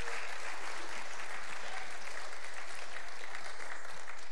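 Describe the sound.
A church audience applauds to welcome a guest to the stage, a dense, steady wash of clapping that holds at an even level from start to finish.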